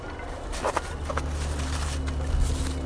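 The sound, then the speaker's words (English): Footsteps crunching over frost and snow in Reykjavik, an irregular run of soft, gritty crunches set against steady outdoor background noise. “And frost crunching underneath the soles of my feet.”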